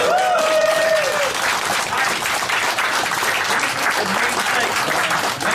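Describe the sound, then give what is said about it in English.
Loud, continuous audience applause fills the whole stretch with a dense, even patter of many hands clapping at a live show. “Give it up for Ballora.”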